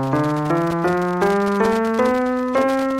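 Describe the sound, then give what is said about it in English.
A major scale played on a single instrument: rich, sustained notes stepping steadily upward one after another, each held about half a second, loud and alone without any voice. “The most common scale in Western music is the major scale, which sounds like this.”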